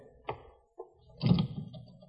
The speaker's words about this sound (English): You lied. This door is locked.